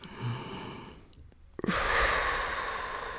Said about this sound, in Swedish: Precis, och bara släpper ut andetaget så mycket som möjligt på vägen ut.